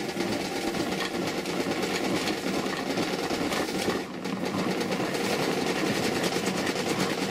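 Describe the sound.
An old hand-cranked vegetable strainer, a second-hand store find, is turned with ice inside, giving a steady rattling, grinding churn that runs the whole time with a brief dip midway and no talk.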